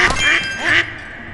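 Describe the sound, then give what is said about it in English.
A duck quacks twice in quick succession, two short, nasal, buzzy calls of similar pitch and loudness, with nothing else heard. “Alright, let's get this duck. We need 3 of them.”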